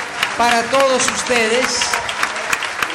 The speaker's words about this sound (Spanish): Ahora un aplauso fuerte